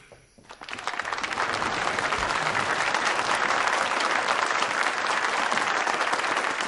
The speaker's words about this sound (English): Who's clapping for? We clapping for you!